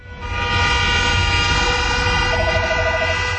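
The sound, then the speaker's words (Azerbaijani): Car horns honk for a wedding in Yerevan. One loud, sustained, brassy blast holds steady for several seconds, and a rapidly pulsing horn joins in over the second half. “avtomobil siqnalları Haykü ilə Yerevan sakinlərini şəhərdə toy olmasaq da xəbərdar edir”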